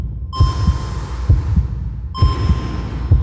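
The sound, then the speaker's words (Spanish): A heartbeat thumps in several low, paired beats at a steady, moderate pace over a hissing, humming bed. “Tengo latidos.”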